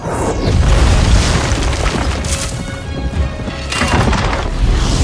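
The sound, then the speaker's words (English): Flaming projectiles crash down onto a beach and throw up clouds of sand. A continuous, heavy rumbling roar carries many booming, splintering impacts, loud throughout and with no voices. “Projectiles crash down like meteorites. Great clouds of sand are thrown up on impact.”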